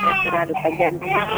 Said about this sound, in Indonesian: Sepertinya ada bayi-bayi yang lagi menangis ya di tadi ini.